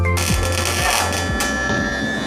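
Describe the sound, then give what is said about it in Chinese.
Arc welding on a 5G horizontal pipe at a technician training college gives a loud, continuous crackling hiss over a steady low electrical hum. “这焊什么呢？ 这焊的是5G 水平管。”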